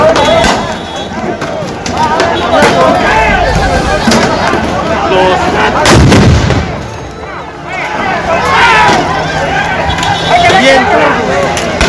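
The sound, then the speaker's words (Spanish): Loud, repeated bangs of firecrackers ring out during a street clash between protesters and a police shield line on the road to Acapulco, with Molotov cocktails thrown. Dense crowd shouting and babble run continuously beneath the blasts. “Los vándalos respondieron con piedras, cuetones y bombas molotov.”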